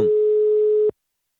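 A telephone line tone plays while a call is being placed. It is one continuous, steady, single-pitch tone that lasts under a second and then cuts off abruptly into silence.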